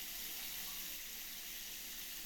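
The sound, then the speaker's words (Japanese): Shower water rinsing a person's shoulders, a continuous even hiss of running spray that stays steady throughout with no voices. “はい、肩はきれいに流れましたよ。次は背中ですね。シャワーを上に固定しますね。”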